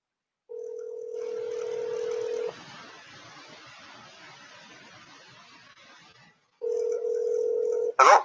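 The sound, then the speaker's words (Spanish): Ringback tone of an outgoing telephone call: two long, steady, even tones, the first about two seconds and the second over a second, separated by several seconds of faint hiss, ending with a brief sharp burst. “Vamos a ver si Memo lo contesta.”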